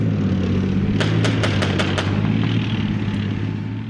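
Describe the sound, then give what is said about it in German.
Gunshots crack across a military training ground churned by tank tracks. A quick burst of sharp reports sits over a loud, steady low engine rumble that fades slightly at the end. “Schüsse hallen über eine von Panzerspuren durchfurchte Lichtung.”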